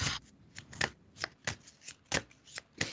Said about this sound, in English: Let me just pull a few cards for you.